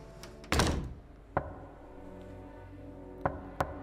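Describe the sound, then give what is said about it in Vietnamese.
Soft knocking on a door: a few quiet, dull knocks, the first one louder and fuller, with the others spread out and fainter over a low, steady background hush. “có tiếng gõ cửa nhẹ nhẹ vang lên.”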